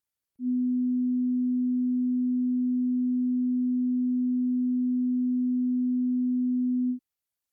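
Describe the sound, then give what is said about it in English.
Pure 250 hertz sine test tone: a low, steady hum that starts after a brief silence, stays at one even pitch and loudness for about six and a half seconds, then stops abruptly. “Sound H was 250 hertz.”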